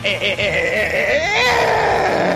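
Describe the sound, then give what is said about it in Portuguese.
A man lets out a loud, strained scream that starts harmonic and tense, then swells into a harsh, roaring peak about halfway through and holds at full loudness to the end. “Mas eu posso pensar em algum grito histórico do cinema ou do YouTube. Serve. E eu dou um dos maiores gritos da história do YouTube”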